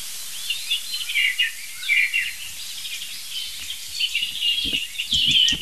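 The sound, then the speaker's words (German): A European robin sings high, thin twittering phrases that repeat through the whole stretch at a fairly low level. Soft low rustles and knocks come in near the end. “Ich denke, das ist ein Rotkehlchen aus der Wand. Ich bin ziemlich sicher.”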